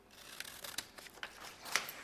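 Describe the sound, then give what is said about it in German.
Faint, crisp snips of scissors cutting a photo out of paper, a quick irregular series of many short clicks and rasps with no talking. “In dieser Zeit können wir das Foto ausschneiden, das wir uns ausgesucht haben.”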